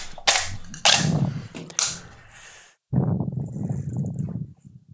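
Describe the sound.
Gunshots fired to destroy a can: a few sharp, loud cracks, each trailing off into a decaying tail, followed by a lower, rumbling burst, with no talk.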